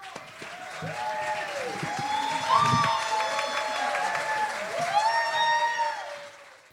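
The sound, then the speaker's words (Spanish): An audience applauds at a concert to welcome a performer, with dense clapping throughout and voices calling and whooping over it that swell in a couple of louder surges. “Un gran aplauso para ella.”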